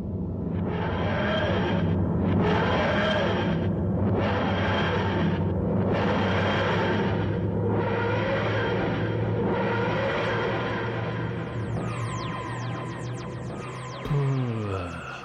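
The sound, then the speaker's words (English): A time machine travels through time with a whooshing, throbbing hum that surges in regular pulses, then breaks into a rapid fluttering near the end. “This time machine is taking a long time to time travel.”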